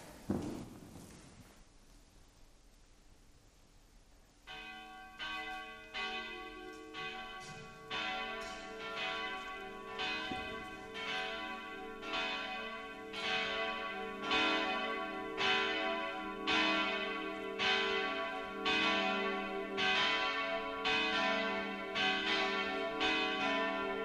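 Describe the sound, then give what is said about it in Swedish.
Church bells ring before an evening mass: many rhythmic, resonant strokes follow a quiet opening, each strike ringing into the next and settling into a steady, fairly loud peal. “Nu låter vi klockorna ringa och så ska vi börja vår mässa ikväll.”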